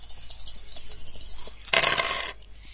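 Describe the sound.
Dice rattle in a computer dice game, one brief clattering burst of about half a second that rises above a faint background and then cuts off.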